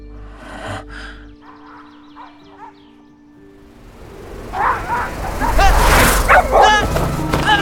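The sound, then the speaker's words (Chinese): A mad dog barks and yelps in a loud, harsh run of rapid barks that builds toward the end, following a quieter opening with steady low tones. “是只疯狗！滚！滚啊！”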